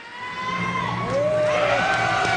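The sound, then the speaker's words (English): Crowd cheering and whooping at a school ribbon cutting marking the first day of class at a brand-new elementary school, with high shouts rising above the cheers, which grow louder partway through. “Cheers erupt as school officials cut a bright red ribbon in half, marking the first day of class at Cassiope Elementary School.”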